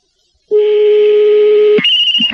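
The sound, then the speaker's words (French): Telephone tones sound as a friend's number is dialed: a loud, steady, low electronic tone holds for over a second, then switches abruptly to a higher tone with brief pulses. “On est déjà en train de composer le numéro de téléphone de ton copain.”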